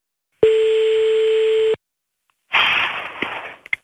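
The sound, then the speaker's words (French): A telephone call being placed: one long, steady, loud tone, then a pause and a burst of noisy line sound with a few clicks as the call connects. “on appelle tout de suite ta maman”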